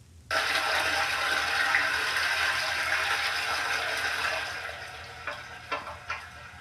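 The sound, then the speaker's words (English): A toilet flushing: a sudden loud rush of water that holds steady for several seconds, then tapers off into a few fainter gurgles. “I think that is a toilet flushing. That is a toilet flushing.”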